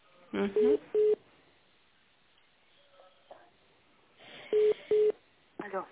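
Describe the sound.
Telephone keypad tones dial an extension to connect a call to a lawyer. A few short, clean beeps come in two clusters, separated by a quiet stretch.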